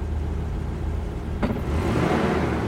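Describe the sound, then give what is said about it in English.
An SUV drives away along a driveway: a steady, low engine rumble that grows slightly louder and fuller toward the end, with a brief sharp transient in the middle. “He drives away.”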